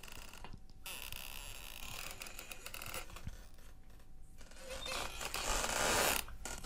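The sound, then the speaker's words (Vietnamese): The hinges of an unpainted wooden door creak as it is slowly pulled open. A faint, scratchy, drawn-out creaking rasps on throughout and grows louder and harsher toward the end. “Hắn từ từ kéo mạnh cửa. Âm thanh kẹt cửa vang lên những cái tiếng ghê rợn.”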